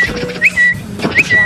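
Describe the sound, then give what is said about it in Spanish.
A person whistles in imitation of a tiny bird: two short phrases, each a quick upward chirp flowing into a thin, held high note, clear and fairly loud with brief gaps between. “Y de repente entró un pajarito chiquitico y me dio tres vueltas aquí arriba y empezó a silbar.”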